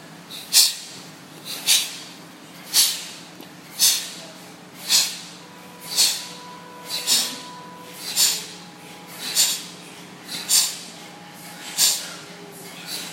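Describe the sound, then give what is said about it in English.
Forceful exhales in a breathing exercise, many sharp, hissing breaths pushed out in a steady, even rhythm about once a second, each short and strong with a brief lull between. “Nice and strong. Sit up straight. Focus on the exhale, not the inhale. Exhale. Exhale.”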